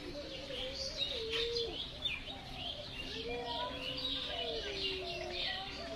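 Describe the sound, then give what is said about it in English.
Birds sing and call together: low, gliding cooing notes run under a constant layer of high chirps and tweets at a steady, gentle level with no voices. “And it's just like here, all you can hear is these birds.”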